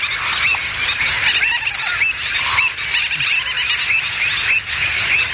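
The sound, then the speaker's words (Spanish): A noisy mixed colony of terns, gulls, avocets and flamingos keeps up a loud, continuous din of shrill squeals, chirps and overlapping calls, with no pause. “Un guirigay, que es el sonido de pagaza, la biodiversidad. Este follón es el sonido de la biodiversidad.”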